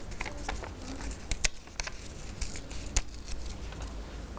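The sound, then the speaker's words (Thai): Colored paper torn slowly by hand with the fingers during a craft demonstration: many soft, crackling rips and ticks at irregular intervals, fairly faint. “คุณครูแพรก็จะใช้นิ้วค่อยๆฉีกไปเลยชึบ”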